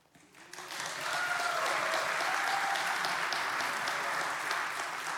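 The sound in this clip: An audience bursts into applause to welcome a speaker, the clapping swelling quickly within the first second and then holding as a dense, steady roar of many hands.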